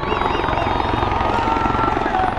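A military helicopter arrives at a stadium, its rotor thumping in a loud, dense, steady chop with a whining turbine above it throughout.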